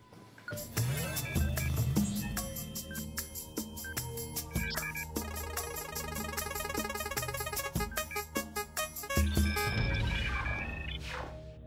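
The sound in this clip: A wheel of fortune spins with rapid ticking set against a bright electronic jingle of ringing tones, all at a moderate level.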